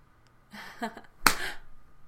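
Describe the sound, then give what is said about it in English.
A hand slaps a buttock once with a single sharp, crisp smack, standing out briefly against otherwise quiet, soft surroundings. “How much do you like the slap of my hand against your ass?”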